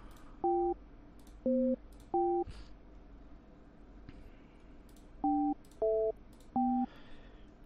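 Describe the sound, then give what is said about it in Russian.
Telephone keypad tones as a call is dialed: six short dual-tone beeps, a group of three and then another three after a pause, each a steady electronic pitch pair, over a low steady hum. “Все, набираю Азамату Загировичу, блин.”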